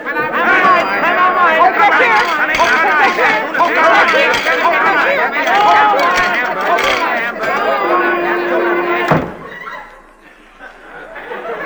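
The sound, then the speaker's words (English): A noisy noon lunch crowd rushing in during a comedy sketch: dense, overlapping chatter and laughter that cuts off abruptly near the end and is followed by a quieter stretch. “Oh, yes, the lunch crowd will be here any second now. There goes the factory whistle. They're coming, sir. Stand back! Here comes the noon rush!”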